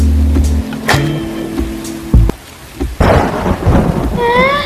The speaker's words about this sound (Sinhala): අනේ අම්මේ මට බයයි. අකුණු ගන්නවට මම බයයි.